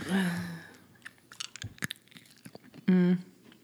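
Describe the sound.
Crunchy chewing of a sugary sweet comes in a series of short, crisp bites and mouth sounds, with brief voiced hums at the start and near the end.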